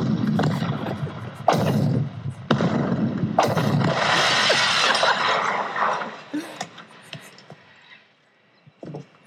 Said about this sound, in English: So the house just exploded. So the rabbit warrens go all the way back to the bottom of the house and it explodes. It's gone